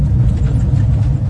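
Steady low engine and road rumble of a Fiat Panda driving on a dry mountain road, a loud continuous drone that holds even throughout without breaks.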